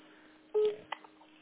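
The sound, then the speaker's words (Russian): A phone is dialed to place a call: one short, clear keypad beep sounds, followed by a couple of faint clicks over a quiet, steady line hum. “Так вот, я при вас звоню.”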